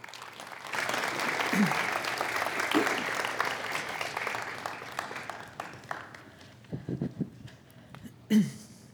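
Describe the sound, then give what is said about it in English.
Audience applause welcomes a speaker at an evening talk. The steady clapping lasts about five seconds, then thins out and fades as a voice starts. “So let's give Gail a warm welcome.”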